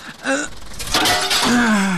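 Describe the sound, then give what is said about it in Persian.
Door glass being smashed, a brief shattering crash set among strained, gasping vocal sounds. “تو باش که من امی شیشه را میده کنم اگه بیدار شوه.”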